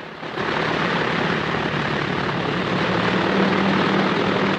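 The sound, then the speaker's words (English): Propeller aircraft engines droning as a line of planes revs up on grass and starts to move off, a loud, steady roar that sets in after a brief quieter moment and holds throughout. “Behind him, the line of planes rev up their propellers and start to move off after him.”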